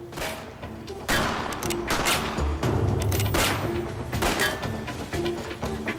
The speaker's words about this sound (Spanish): Hubo un intercambio de disparos.